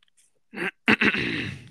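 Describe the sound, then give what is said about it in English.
An odd cough: a short breathy huff, then a sharp explosive burst that runs into a drawn-out, raspy voiced sound. “What a weird cough.”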